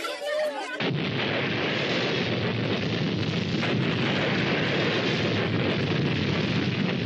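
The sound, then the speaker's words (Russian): A series of explosions rolls through an oil refinery, bursting in abruptly after a short quieter opening and continuing as a loud, sustained, rumbling roar to the end. “По нефтеперерабатывающему заводу прокатывается серия взрывов.”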